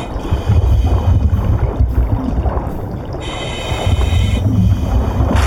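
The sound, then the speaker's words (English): Muffled underwater swimming in a video game cave: a low, watery rumble that surges and eases unevenly throughout, heard alone without talk. “Looks like I'm gonna go swimming. Might as well use it.”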